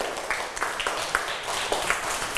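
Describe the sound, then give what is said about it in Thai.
Children in a classroom clap for a classmate: a thin, scattered patter of small claps over a steady wash of noise, with a few sharper hits standing out. “ดีเยี่ยมเลยค่ะปรบมือให้เพื่อนหน่อยค่ะ”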